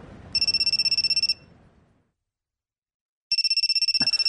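A telephone rings while someone places a call. Two bursts of rapid, trilling electronic ringing are separated by a stretch of silence, with a sharp click during the second burst.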